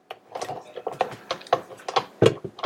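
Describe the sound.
Attachment being fitted onto a kitchen mixer, producing many small, irregular plastic and metal clicks and clatters in quick succession, fairly quiet and with no voices.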